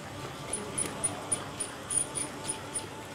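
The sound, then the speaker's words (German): A self-built lunar rover test model drives and digs through dusty ground, giving a quiet, steady gritty rumble broken by many regular high-pitched squeaks or ticks in an even rhythm. “Ein selbstgebauter Rover. Der soll sich hier voranwühlen und dabei nicht zu viel Staub in sein Inneres schaufeln.”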